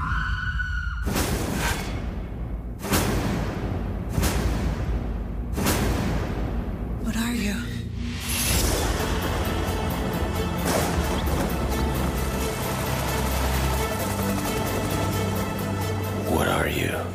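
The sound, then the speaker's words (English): Trailer audio for the film The Spirit (2008): a few heavy booming hits and swooshes open it, then a dense, sustained dramatic score continues with voices heard over it. “I think we should get into our trailer. Let's go.”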